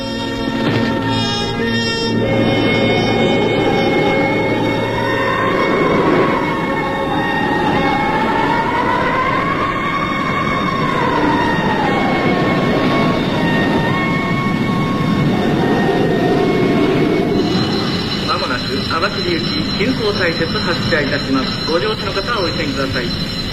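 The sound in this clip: A train runs with a loud, continuous rumble and rail clatter for the whole clip, with tonal squealing lines drifting up and down in pitch above the steady roar.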